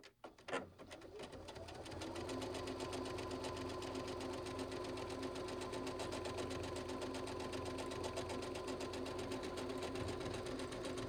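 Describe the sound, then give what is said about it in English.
A sewing machine stitches a buttonhole over loose, floating stabilizer, starting with a quick click and then settling into a steady, fast, even whir and tap of stitching that runs without a break. “And I'm stitching out my buttonhole. And you'll notice when the lever hits the bumper.”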